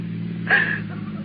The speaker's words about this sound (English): He left the motor run.